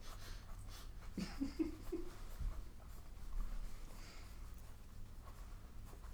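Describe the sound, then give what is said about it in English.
Faint scratching of a pen or pencil writing on a paper character sheet, soft and intermittent under a low background hiss, with no talk. “I can confirm that he did in fact write that.”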